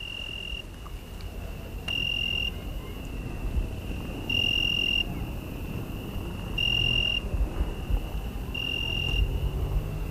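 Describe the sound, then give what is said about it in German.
Shrill insect song of many cicadas and crickets in the dark outside a village trattoria in Italy: a continuous high, piercing tone that swells into four louder pulsing bursts over a low, faint background rumble. “begleitet mich im Dunkel der grelle Gesang der Zikaden. Es hört sich an, als sängen da in der Dunkelheit Scharen von Vögeln. So viele Grillen sind es.”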